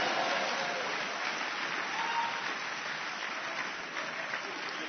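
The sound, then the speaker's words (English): A church audience clapping their hands during a sermon, a continuous, even roar of many hands with no clear breaks, sounding somewhat muffled and band-limited. “Are you clapping your hands for the Lord?”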